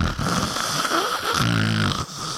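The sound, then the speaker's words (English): Voice imitation of loud snoring, a man mimicking his own log-sawing snores: a rough, droning rasp with a buzzing low tone that swells strongly partway through, loud and continuous without talk. “he shows me a video of me snoring, sawing logs. I couldn't believe how loud. I mean, it was like,”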